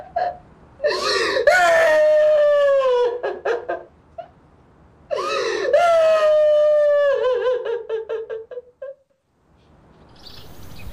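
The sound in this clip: A person crying hard: two long, loud wailing cries, each rising and then trailing off into broken, shuddering sobs and gasps, followed by near silence.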